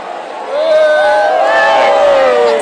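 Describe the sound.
A crowd cheers, a loud sustained roar that swells in after a quieter start, with many voices blending into a wavering, tonal din that stays loud to the end.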